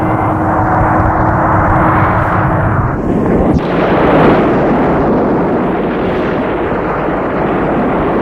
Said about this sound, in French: l'avion a explosé. Une bombe a explosé dans l'avion.